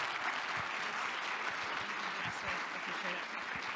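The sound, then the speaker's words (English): An audience on its feet gives a guest a warm welcome with sustained, even clapping that holds steady throughout, and faint voices sit beneath it. “So would you stand to your feet and put your hands together?”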